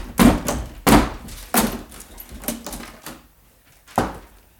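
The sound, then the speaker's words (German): A locked door being broken down by heavy blows, several forceful thuds at irregular intervals, each a dull booming impact with a brief rattle. Weaker knocks follow, and a final strong blow comes after a pause. “wir müssen die Türe einschlagen. Ich übernehme die Verantwortung.”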